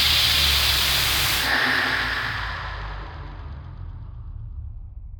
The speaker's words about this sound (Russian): Опилки зазвучали громче, захрустело помехами радио.